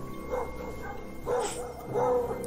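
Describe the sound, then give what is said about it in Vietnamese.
A pack of dogs barks at night, giving a few wavering, moderately loud barks and yelps separated by short pauses over a low, steady background, with no talking. “Trong cái không gian u tối lạnh lẽo, đàn chó vẫn không ngừng sủa inh ỏi.”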